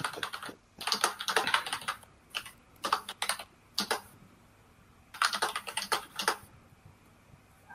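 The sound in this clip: Rapid typing on a computer keyboard by a colleague, clattering keystrokes in several quick bursts separated by short pauses, with a longer gap before a final run; no voices.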